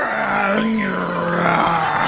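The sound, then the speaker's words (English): A wrestler grunting and groaning while crouched, with a low, strained vocal drone held steadily throughout over dense background noise. “The audience shouts Banzai! And he is... he's grunting and groaning.”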